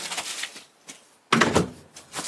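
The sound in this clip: A door is handled as people step outside from a flat: a few soft bumps and scrapes, then a louder, sharper clatter midway, with quieter knocks after it.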